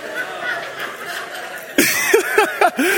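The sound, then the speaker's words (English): A person snorts on stage: a sharp, noisy nasal burst is followed by a few short, voiced, chuckle-like bursts, all louder than the quieter sound before them. “I'm snorting up here on stage, y'all.”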